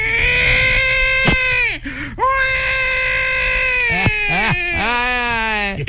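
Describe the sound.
A man imitates a newborn baby's cry with his voice: loud, sustained, whiny wails with bending pitch that run almost continuously, broken only by brief catches and a couple of short yelps.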